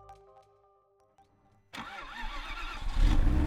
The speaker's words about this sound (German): Er fährt einen schneeweißen Range Rover Vogue.